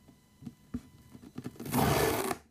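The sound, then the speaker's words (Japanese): Painter's masking tape is pulled off its roll: a few short, quiet crackles, then a loud, harsh, sustained ripping rasp for about half a second before it stops. “養生テープ。 養生なんだ、養生ってこんな強いんだ。”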